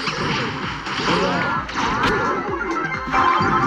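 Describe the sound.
A green wall is smashed with an ultimate ability in a video game. Sharp whip-like cracks and crashing impacts mix with swishing whooshes, landing as several loud, quick hits.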